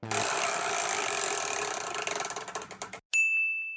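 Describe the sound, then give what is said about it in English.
A large prize wheel spun in a studio clatters with fast ratcheting clicks that spread out and slow until it stops. A bright, sustained ding rings out alone right after. “you can see this gigantic wheel in the studio with us. If one of you just hops up there and just gives it a old spinny-roo.”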